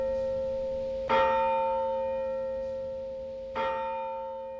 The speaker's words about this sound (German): Darauf läutete er die Glocke